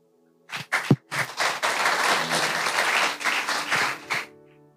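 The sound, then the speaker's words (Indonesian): Applause from a seminar audience for a speaker: a few scattered claps swell into dense, steady clapping that holds for several seconds, then cuts off fairly abruptly. “Sekali lagi kita berikan aplaus bagi pembicara kita pada siang hari ini.”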